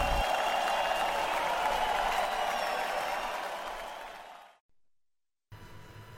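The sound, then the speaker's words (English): A crowd applauds and cheers in a dense, steady wash of clapping that fades away after about four seconds, then drops to a brief silence before another sound begins. “you're probably wondering what the crowd is cheering about. Well, you know, I know that that is the reaction to the original Radical Songbooks.”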